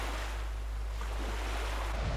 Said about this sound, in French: Un jour, Jésus monta dans une barque avec ses disciples. « Passons de l'autre côté du lac. » Et ils partirent. Pendant qu'ils naviguaient, Jésus s'endormit.